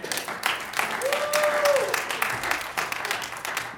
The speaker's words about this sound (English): I press on. Let's give him another hand.